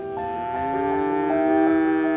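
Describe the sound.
A cow in a farm herd gives one long, sustained moo, a rich harmonic lowing tone that holds steady and climbs slightly in pitch, with no talk over it.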